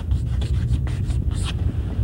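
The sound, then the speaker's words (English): Handwriting with a pen: a steady run of scratchy strokes over a low, continuous rumble. “And I'm going to write it out because it is rather important, this law.”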